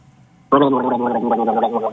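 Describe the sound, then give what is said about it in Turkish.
Gargling with şalgam, a turnip juice drink, starts abruptly after a short quiet lead-in. It becomes a loud, continuous, bubbling voiced gurgle that holds steady for about a second and a half. “Evet şöyle bir gargara yap bakalım Zeynep hocamın tavsiyesi.”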